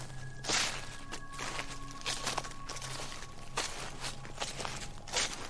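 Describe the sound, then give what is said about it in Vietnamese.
Footsteps on forest ground snapping dry twigs: a slow, irregular series of quiet crunching, rustling steps over a faint steady low hum. “tiếng bước chân dẫm trên nền đất làm gãy những cành cây khô, trở nên rõ ràng tiếng răng rắc soàn soạt”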